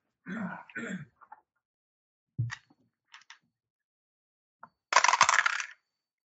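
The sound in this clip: Dice clatter for a tabletop role-playing game climb check rolled with a bonus die: a few scattered sharp clicks and knocks, then a longer, dense rattle near the end, with no talking.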